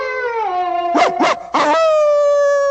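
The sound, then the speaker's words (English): A long-haired dog barks into a gutter downspout, giving three short, sharp barks in quick succession over a steady, held high tone. “The dog barks into a gutter downspout.”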